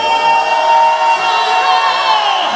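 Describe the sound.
Worshippers at a Christian worship gathering shout and cheer together, a loud, sustained wash of massed voices that holds strong across the brief span without a clear break.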